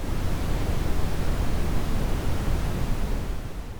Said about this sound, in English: And this is an example of pink noise.